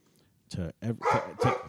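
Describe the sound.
A dog barks after a knock at the door: a few sharp, harmonic barks in quick succession following a short pause, fairly loud against a quiet background.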